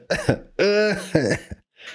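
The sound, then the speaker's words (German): A voice imitates coughing in a few harsh, throaty bursts, voiced at first and then breaking into a short breathy rasp at the end. Each burst is loud and close together, with no other sound behind. “Oder man hustet die ganze Zeit wie Peter Griffin”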